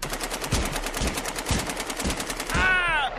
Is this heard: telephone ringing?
no